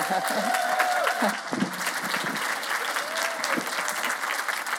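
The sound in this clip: Audience applause welcomes a speaker at a women's conference. The clapping is steady and continuous throughout, with a faint voice rising through it at moments.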